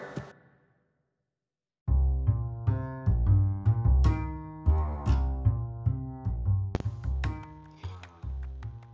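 Band music from a song: a short note fades into about a second of silence, then a rhythmic, plucked passage with a strong bass line plays on steadily.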